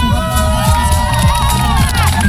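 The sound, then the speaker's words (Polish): A crowd cheers and whoops around an influencer at a charity fundraiser after the target is reached. The shouting is loud and continuous over music with a steady beat. “Tak w otoczeniu tłumów podążających za swoim idolem, influencer dziękował wszystkim, gdy okazało się, że planowana suma zbiórki została osiągnięta.”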